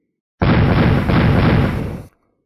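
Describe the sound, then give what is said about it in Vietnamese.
A single loud, sustained burst from magic command tokens shattering into fine powder in a fantasy battle. It erupts suddenly, holds a dense, roaring rumble for under two seconds, then cuts off into quiet. “Bốn âm thanh vang lên, bốn cái lệnh bài được cầm trong tay mấy người Bạch Diện Thư Sinh liên tiếp bạo liệt ra, biến thành bột mịn.”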